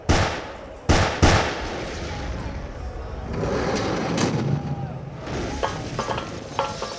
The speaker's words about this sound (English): That was some pretty good shooting for a preacher.